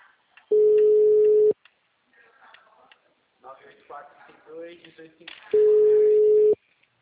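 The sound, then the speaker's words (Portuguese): Telephone busy signal: two steady one-second tones about five seconds apart, with a voice speaking between them. “Vai entrar. O número está ocupado.”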